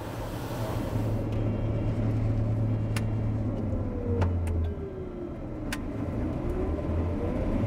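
A combine harvester engine running at full speed again during harvest after a fault gives a loud, continuous drone with a steady low hum. A few sharp clicks sound over it.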